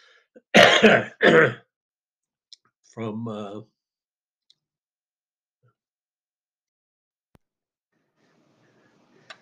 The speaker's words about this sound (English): sorry for another interruption. I had another coughing episode.